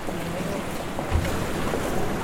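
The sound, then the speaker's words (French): Rough, agitated sea waves off Naples roar steadily with wind, a dense, loud wash of surf throughout with no clear breaks. “Voilà la mer. Et quelle mer ! Très agitée,”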